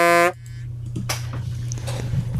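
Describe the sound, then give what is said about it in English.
A single loud, blaring honk used as a start signal lasts only a fraction of a second at the very beginning, then gives way to a low, steady hum. “At the sound of the honk, we are going to click play.”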